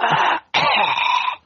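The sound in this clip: A person coughing with a wet, phlegmy rasp: two drawn-out, loud hacking coughs separated by a brief pause, the second one longer than the first.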